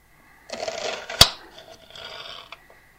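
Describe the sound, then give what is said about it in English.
Knife slicing slowly down through an onion, with crisp rustling cuts and one sharp knock partway through, followed by softer scraping. “Knife near to the fingers, remove your fingers and cut down. You may feel you want to draw the knife to the side, so you're just slicing the onion”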